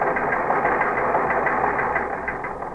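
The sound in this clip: A teletype machine printing, giving off a loud, dense mechanical clatter that runs without pause and eases slightly near the end.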